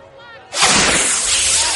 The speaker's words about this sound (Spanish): Una bengala sale disparada. Estalla como una palmera de luz.